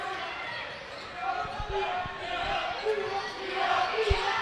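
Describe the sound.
A basketball dribbled on the court during a game, several faint thudding bounces under crowd noise and an announcer talking.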